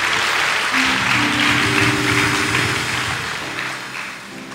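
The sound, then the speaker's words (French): Seated church audience applauding in a steady, dense wash of clapping that holds for several seconds and eases slightly toward the end. “acclame le Seigneur en t'asseyant.”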